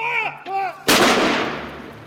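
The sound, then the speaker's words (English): A cannon boom from a gun salute marking the death of the Duke of Edinburgh. A single loud blast with a sharp onset follows a brief stretch of talk, then fades into a long, rumbling decay. “Gun salutes across the UK, Gibraltar, and on Royal Navy ships have marked the death of the Duke of Edinburgh.”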